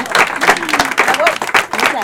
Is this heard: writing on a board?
no